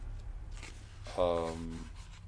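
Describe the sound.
Scratchy handwriting as the word mimesis is written out: a faint, steady rubbing texture with a brief voiced murmur partway through.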